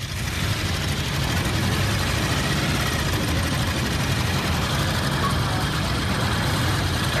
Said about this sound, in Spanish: hablamos de el sonido del motor.